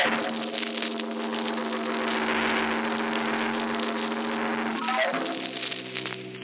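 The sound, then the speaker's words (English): Car engine droning steadily as the car speeds along a dark road at night, a sustained low-to-mid hum whose pitch dips briefly near the end. “he's driving too fast. It's so dark.”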